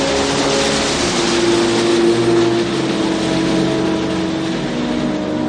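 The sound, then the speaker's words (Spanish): A truck trailer pulls away with its metal ramp still down, scraping across asphalt and throwing sparks. A loud, continuous grinding roar runs over a steady engine hum, with no speech. “De pronto el tráiler arranca sin recoger la rampa, lo que provoca que al contacto del metal con el asfalto salten chispas.”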